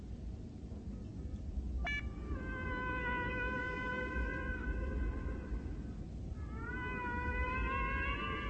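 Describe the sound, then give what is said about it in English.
Whale song played over speakers: long, harmonic moaning calls with a quick chirp early on, fairly faint beneath a steady rumbling noise, with no talking. “Admiral, I am receiving whale song. Put them on speakers.”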